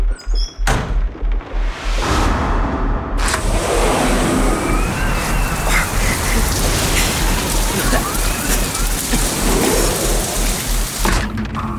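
Rain pours down in a storm outside, a steady, loud hissing wash that fills the whole clip. A few dull thumps punctuate it near the start and again at the end.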